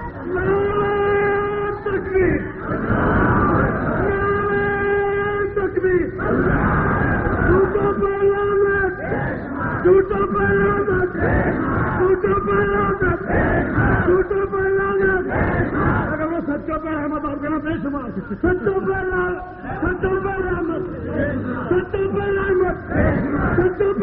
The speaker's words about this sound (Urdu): آہستہ نعرہ لگاؤ آپ کو گرفتاری نہ ہو جائے. یہ صحت کے لیے مفید نہیں ہے نعرے لگانا. یہ نعرے لگیں گے